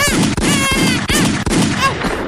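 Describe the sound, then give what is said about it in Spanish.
A few sharp gunshots are fired at someone, cutting through a loud, continuous shouting voice. “Estás disparando al hermano de 18 años de la cerillera. Estás loco, te lo has cargado.”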